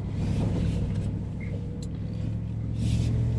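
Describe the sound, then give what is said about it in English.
A big SUV towing a narrow trailer gives off a steady low engine and road rumble with a droning hum, holding an even level throughout with no talking. “this trailer is not super wide, so, and this is such a big SUV that for a while there I was forgetting it's back there.”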